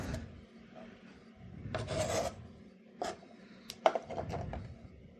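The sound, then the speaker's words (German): A knife cuts vegetables into small cubes, giving faint, raspy strokes that come in a few irregular bursts, with quiet scraping between them. “Jetzt mal, schneide ich mir hier noch ein paar kleine Würfelchen damit wir dann nachher keinen Mangel haben. Und den Rest schneide ich etwas gröber, das geht dann auch schneller.”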